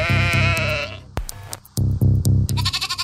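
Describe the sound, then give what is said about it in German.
Sheep bleating in a few loud, quavering calls, each a wavering nasal cry with short pauses between them. “Das Schaf Dolly ist eigentlich zu einer Ikone dieser Klonforschung geworden.”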